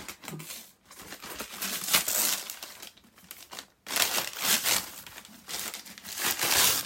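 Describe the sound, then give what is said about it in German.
Newspaper crinkles and tears as a book gift wrapped in newsprint is opened, a steady, busy rustling that pauses briefly twice before starting again loud, with no talking. “Wir haben übrigens auch alle in Zeitungspapier eingepackt.”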